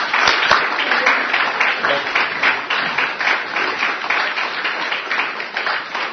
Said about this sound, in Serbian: da dođu ovdje, da ih pozdravimo jednim velikim aplauzom.